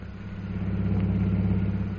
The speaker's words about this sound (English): driving through the streets of Shanghai on their way to the Jockey Club